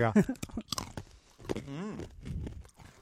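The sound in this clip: Crunching bites into brittle made with mealworm larvae, with a few sharp brittle cracks mixed with chewing while people talk over it.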